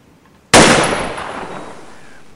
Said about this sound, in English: They've only given me a very cheap plastic toy gun. Pull the trigger.